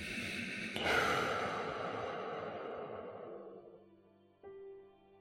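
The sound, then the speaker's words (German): Slow, deep breathing during a guided meditation: a long, airy breath swells and then fades gradually, followed near the end by a short, soft tonal sound. “Lang und langsam ausatmen, so wie es für dich gut anfühlt. Und nochmal ein. Und ausatmen.”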